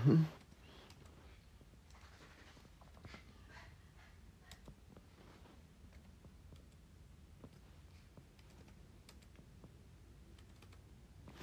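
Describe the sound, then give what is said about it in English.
Typing on a computer keyboard with one hand: many soft, irregular key clicks run steadily and faintly throughout, after a brief louder thump at the very start. “I type with one hand.”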